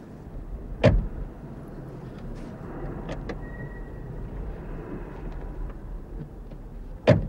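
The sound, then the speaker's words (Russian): Car doors thudding shut as someone gets into a car: two sharp, loud slams about six seconds apart, with a low steady rumble between them. “Осторожно. Садитесь в машину.”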